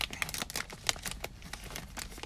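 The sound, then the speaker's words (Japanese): Dry crinkling of an Ultraman sticker snack wrapper being torn open, a dense, irregular flurry of quick crackles and rustles running throughout, with no talking. “開封していきましょう。こんなね、動画でもないのに開封してどうするんだって話ですけどね。”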